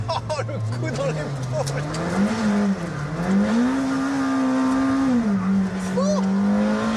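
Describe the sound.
A powerful 800-horsepower, 1200 kg car with 800 Nm of torque accelerates hard. Its engine note climbs and dips through gear changes, with voices talking over the roar.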